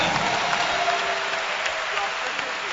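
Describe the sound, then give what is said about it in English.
Congregation clapping hands during a church service: dense, steady applause that holds at an even loudness without a break. “Can I hear a hand clap?”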